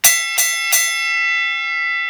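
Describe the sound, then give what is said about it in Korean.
A boxing round bell is struck three times in quick succession, giving bright metallic clangs. After the last strike, a long sustained ring slowly fades. “종이 울렸는데도”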